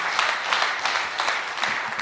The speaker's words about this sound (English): Let's clap it up for Ronald and Daniel, our Enneagram 2.